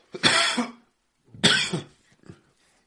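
Coughing after inhaling saliva while laughing: two harsh, loud coughs about a second apart, followed by a fainter, brief throat-clearing sound.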